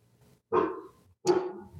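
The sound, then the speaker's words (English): A dog barks twice, two sharp, loud barks about three quarters of a second apart, with near silence between them. “that's our first dog on the podcast.”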